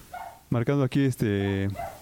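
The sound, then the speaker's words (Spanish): A small female dog barking: a few sharp, high, quick barks, then a longer, drawn-out yelping bark that is loud and close. “Pero yo creo que mi perrita, la que está ladrando, yo creo que es la que marca más volumen.”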